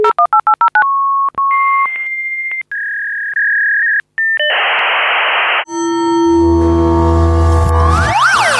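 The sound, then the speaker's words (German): A fax machine dials and connects: a quick run of touch-tone beeps, then several steady electronic tones and a burst of hiss. A loud, dense warbling handshake screech follows and continues to the end, with no voices. “Das gute alte Telefax.”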